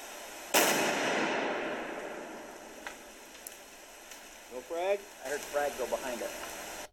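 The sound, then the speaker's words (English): Explosive blast blowing open the hatch of a well-built bunker: one sharp, loud bang followed by a long hissing decay, with a few small clicks and faint voices afterward. “It blew it enough to where it came up and then back down, so they still had to pry it open. This thing was well built. Here's actual audio from that blast.”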